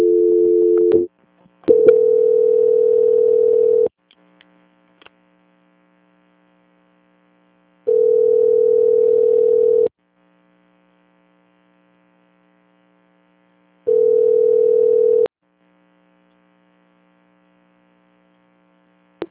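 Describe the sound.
Telephone ringing tones play while a call is being transferred. A short opening beep is followed by three steady, mid-pitched tone bursts of about two seconds each, separated by long silent gaps in a regular pattern.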